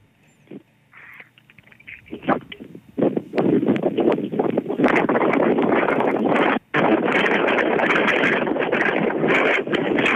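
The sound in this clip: Wind buffeting a microphone on a windy summit: a loud, steady roar of rushing noise that builds after a few quieter seconds, then runs on with one brief drop partway through.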